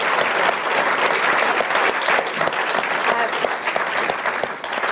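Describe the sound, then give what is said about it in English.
A live audience at the Tory Party Conference claps and cheers in a thick, continuous burst of applause with shouts mixed in. The noise stays loud throughout and dips slightly near the end. “can we make some noise, people know we're not an empty room?”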